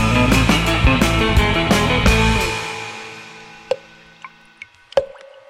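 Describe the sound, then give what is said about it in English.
Dripping blood sound effect at the opening of the film Black Sunday: a loud, dense musical chord fades away, then four crisp, isolated drips land one after another in the quiet. “The sound you hear is dripping blood. This is the start of Black Sunday. Black Sunday comes but once every 100 years.”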